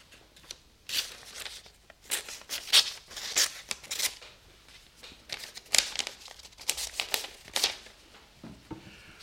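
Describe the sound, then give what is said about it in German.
A paper letter is handled and opened, its sheets crinkling and rustling. The sound comes in many short, irregular, fairly faint bursts with small pauses between them. No one speaks. “Gnädige Frau, die Sachlebinins haben herübergeschickt mit diesem Brief von Herrn Trusotzki. Herr Trusotzki sei abgereist für Herrn Welchaninow. Hier bitte, Alexei.”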